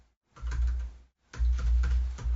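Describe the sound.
A password is typed on a computer keyboard in two short bursts of quick key clicks separated by a brief pause, fairly soft and with no voices.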